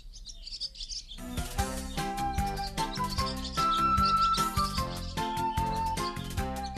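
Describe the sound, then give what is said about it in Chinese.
Birds chirp and sing in spring woods, quick high twittering joined by bright, tinkling melodic tones that carry on steadily throughout. “树林里好热闹了，充满叽叽喳喳的叫声，各种喧闹声和歌声。”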